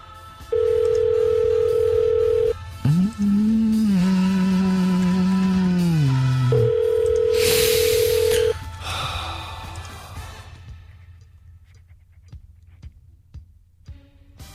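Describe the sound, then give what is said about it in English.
A foreign telephone dialing tone: a steady beep, then a lower, wavering tone that dips in pitch, then the steady beep again. A burst of hiss follows and fades into faint noise. “It's got a foreign dialing tone.”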